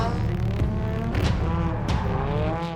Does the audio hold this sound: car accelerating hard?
yes